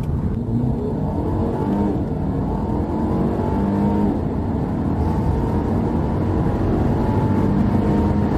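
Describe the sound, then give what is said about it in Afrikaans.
A Mercedes plug-in hybrid car, whose combined petrol and electric motors give 205 kW and 600 Nm, pulls away on battery power, with a loud steady motor hum and a tonal whine that gradually climbs in pitch over about eight seconds. “En met die wegtrek sien hy vir my my elektriese rykafstand is 31 km. So aan die begin van my tog loop hy net op die battery lekker volgelaai en lekker sterk.”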